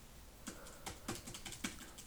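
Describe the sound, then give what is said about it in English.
Faint computer keyboard typing as a Google search is entered: several irregular, quiet keystrokes clicking one after another. “I'm going to go on Google, type in Florida man, the date, and the first thing that comes up, we're going to talk about it.”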